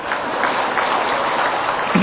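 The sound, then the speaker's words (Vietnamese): Audience applause at a Buddhist dharma talk, a dense steady wash of clapping hands that holds at an even level throughout. “Thôi vỗ tay luôn đi.”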